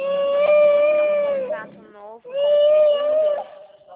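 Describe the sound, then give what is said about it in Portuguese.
A baby girl cries and screams loudly during a phone call, two long sustained high wails separated by a brief pause. “Só um minutinho que a Maria tá vindo pegar a nenê, porque eu não consigo escutar nada. Ela fica gritando.”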